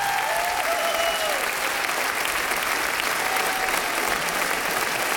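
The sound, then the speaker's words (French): A standing ovation in a radio station's concert studio after a singer's performance with a forty-piece ensemble: dense, sustained applause from a large audience, loud and unbroken for over five seconds. “Et le public ici, au studio 104 de la Maison de la Radio et de la Musique, s'est levé. Une ovation pour Stéphanie Cher.”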